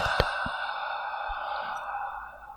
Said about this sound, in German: Ich atme wieder leise ins Mikro.